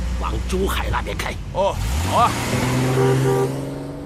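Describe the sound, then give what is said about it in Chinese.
A car engine drones as the vehicle pulls away, rising in pitch midway before settling into a steady hum. Brief voices and clatter are heard early on. “你去开车，我们跑一趟。”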